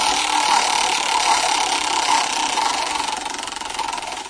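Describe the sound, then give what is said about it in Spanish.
A game show roulette wheel spins with a continuous whirring rattle, a steady, loud mechanical drone that holds even throughout and eases slightly toward the end. “Ruleta, por favor.”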